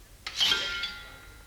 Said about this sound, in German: Soldaten, füllt die Becher weiter.